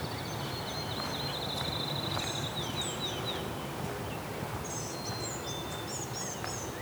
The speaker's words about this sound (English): These gnatcatchers are being loud.